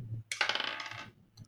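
A six-sided die rolled during tabletop role-playing character creation: a faint, quick clatter of rapid rattling bounces that settles within about a second.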